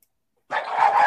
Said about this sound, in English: Oh, damn dog and cat fight. Cat fight! Cat fight!